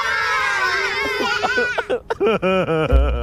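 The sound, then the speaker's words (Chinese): Crying and sobbing in a children's cartoon: a drawn-out, high, wavering wail that breaks into short, choppy sobbing bursts toward the end. “你怎么又哭了？”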